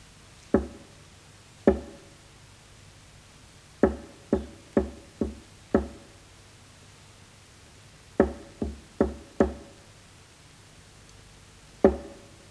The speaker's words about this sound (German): Ich sitze in der Zelle und warte auf die Klopfzeichen.